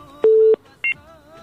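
Two short electronic telephone beeps mark a phone-in caller's line being connected: a longer, lower steady tone, a short gap, then a brief, higher double-toned beep, alone over faint background noise.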